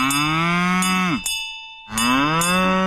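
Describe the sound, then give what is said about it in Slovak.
Cows graze in mountain meadows, mooing twice in long, low, drawn-out calls separated by a short pause. Light metallic clinks of a cowbell sound alongside. “Kravičky pasúce sa na lúkach,”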